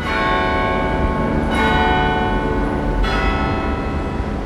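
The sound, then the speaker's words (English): Church bells pealing at an Anglican church in London ring out loud and continuous, their overlapping metallic tones sustaining throughout, with fresh strikes renewing the clang a couple of times. “What you just heard are the church bells from St. Clement's Danes, an Anglican church in the city of Westminster, London, situated just on the Strand.”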